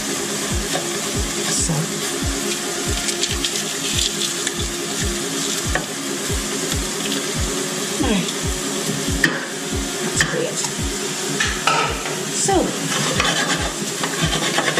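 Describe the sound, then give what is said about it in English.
Honey chili chicken, vegetables and purple onion are stirred in a hot pan, giving a constant sizzle under many quick, evenly paced scrapes and knocks of the utensil against the pan. “Mix this all up in the pan, get a bit of heat going.”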